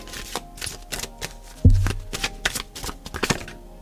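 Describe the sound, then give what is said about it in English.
Cards are pulled from a Barbieri Zodiac Oracle deck, giving quick papery flicks and shuffling rustles with one soft, heavier thump partway through, with no talking. “let me pull a couple cards from the Barbieri Zodiac Oracle”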